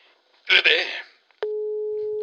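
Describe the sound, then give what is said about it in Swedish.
Telephone signal after pressing speed dial: a brief louder burst of noise, a short pause, then a sudden steady, unbroken electronic tone that continues to the end. “Se du, jag har ju skaffat det speed dial på telefonen. Så nu ska vi se till jag trycker.”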